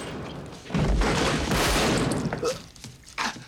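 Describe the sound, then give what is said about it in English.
Repeated gunfire from a heavy firing out of a window, a loud, dense volley of shots sustained for over a second, then a few sharper, scattered reports that drop away and return briefly. “Easy takes the shot, then Albright's other heavy fires repeatedly out of the window as he walks towards it.”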